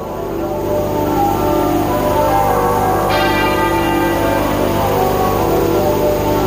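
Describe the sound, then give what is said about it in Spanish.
Church bells at Westminster, St Paul's Cathedral and Windsor Castle toll in unison to mourn a monarch's death. A single resonant stroke rings out midway over a dense, constant wash of sound. “Escuchábamos ahora mismo cómo a esta hora doblan al unísono las campanas de Westminster, de la Catedral de San Pablo y también del Castillo de Windsor.”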